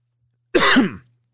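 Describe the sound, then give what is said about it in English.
A single throat-clearing cough, one rough burst lasting about half a second that fades out, heard alone with no talk around it. “I just coughed there.”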